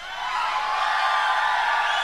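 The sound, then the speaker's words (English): A concert crowd yells at an indie folk show, a loud, sustained roar of many voices that swells within the first moment and holds steady to the end. “what we're gonna do now, how loud can you yell?”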